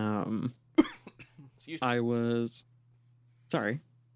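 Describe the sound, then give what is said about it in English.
A single short, sharp cough breaks in among voiced murmurs and speech-like sounds, with quiet gaps between them. “I just coughed.”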